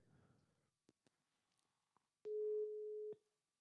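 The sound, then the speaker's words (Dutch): A steady mid-pitched telephone tone sounds on an outgoing call being dialed, holding for about a second after a few faint clicks. “Dus ik ga hem bellen. Ja, ik ben zo bij jullie terug.”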